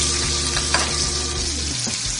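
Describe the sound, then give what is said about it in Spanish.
Bacon frying and browning in a pan: a continuous, loud, crackling sizzle over a low hum, with no voices. “ustedes le agregan, porque te van a dorar ahí el tocino,”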